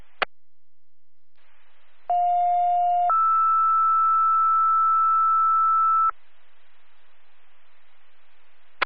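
A fire dispatch alert for first responders sounds as a two-tone page: a lower steady tone lasting about a second steps straight up to a higher steady tone held for about three seconds. Sharp clicks open and close the transmission.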